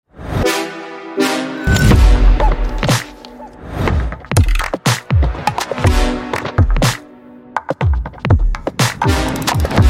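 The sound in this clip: A drum roll introducing a quiz question on a sports talk show, with many heavy, booming drum hits in quick succession and ringing tonal accents, loud and with no talk.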